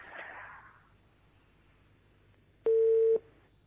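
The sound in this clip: Telephone line tone after a call is cut off: one loud, steady mid-pitched tone burst lasting about half a second, coming after a faint hiss and a long stretch of near silence.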